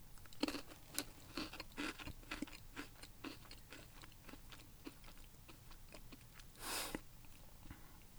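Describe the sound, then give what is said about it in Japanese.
Crunchy chewing of a thick snack stick coated in lots of powder, with many crisp bites and grinding crunches in a steady rhythm and one louder, longer crunch near the end. “スティックがちょっと太めのスティックが入ってますけど、そこに、パウダーがいっぱい振りかけられていて、っていう感じでございます。形状はね、でこれちょっと一つちょっと食べてみたいと思いますけれども、いただきます。”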